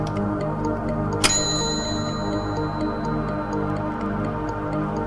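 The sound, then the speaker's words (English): A clock being fiddled with at a table ticks steadily in many light, regular clicks. A single sharp metallic ring sounds early on and lingers before fading. “Mickey leaves Fintan sitting at a table, fiddling with the clock.”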